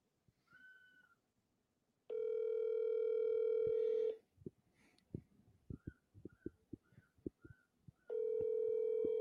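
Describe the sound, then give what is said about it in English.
A telephone tone sounds while a call is placed: two long, steady humming tones separated by a pause filled with faint irregular clicks, after a short chirp at the start. “Let me call him real quick. See where he's at.”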